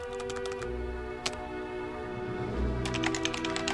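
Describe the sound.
Typing on a computer keyboard during an online chat: a quick run of key clicks, a single isolated tap, then another rapid burst of keystrokes over a steady low hum.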